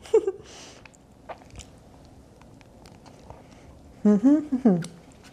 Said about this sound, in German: So, einmal beiße ich noch rein, weil es so lecker ist.